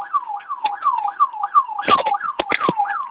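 An alarm system siren keeps sounding after its key has been removed, a loud, high, rapidly repeating rising-and-falling wail, broken in the second half by a few sharp, clattering clicks.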